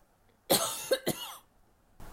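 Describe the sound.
Coughing and throat clearing from one person with a tickle in the throat: three sharp, loud bursts close together, then quiet with a faint noise near the end.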